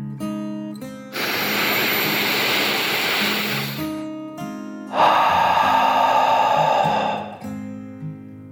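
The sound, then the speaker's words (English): A long, deep breath drawn in and then blown out: two broad, airy rushes of a few seconds each, loud over soft music underneath. “took another deep dragon breath, in and out.”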